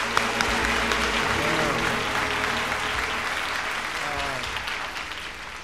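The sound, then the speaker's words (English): A live concert audience applauds and cheers, dense steady clapping mixed with a few whoops that stays strong and eases slightly toward the end. “So now those of you here got to sound like about 2,000. Can you sound like 2,000? Yeah. Let me hear.”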